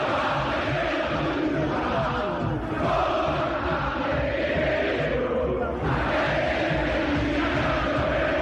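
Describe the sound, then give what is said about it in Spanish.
Boca football fans singing together in the stadium at Palacio Ducó during a match against Recoleta, a massed chant that rolls on steadily over the broad noise of the crowd. “Y canta el público de Boca.”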